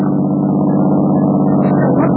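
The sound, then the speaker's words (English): A car drives past, its engine giving a steady, loud mid-pitched rumble that holds evenly from start to finish. “What's that? That car going by.”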